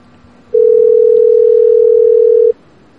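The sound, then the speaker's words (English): Telephone ringback tone on an outgoing call: one steady, pure mid-pitched tone lasting about two seconds, loud and alone, with near-silence before and after it. “We'll call from the other number here. Maybe a little answer from the another caller ID.”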